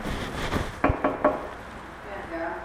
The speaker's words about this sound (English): See, so the knocking is what I'm doing. So it sounds like this.